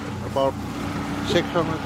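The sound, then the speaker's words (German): A fishing boat's motor runs at full throttle as the boat rushes back toward Ilulissat after a halibut catch, giving a steady low droning hum with wind noise while a voice talks over it. “Samuel dreht den Motor voll auf und das Boot rauscht zurück Richtung Ilulissat.”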